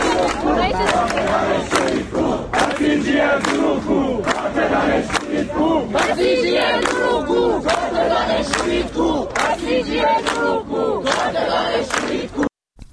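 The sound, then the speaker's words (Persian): A crowd of students at the University of Tehran engineering faculty chants freedom slogans loudly and rhythmically, many voices in unison. The chanting repeats in strong pulses and stops abruptly near the end. “دانشگاه تهران، دانشکده فنی هم تجمع کردن. صدای دانشجویان دانشکده فنی رو بشنویم.”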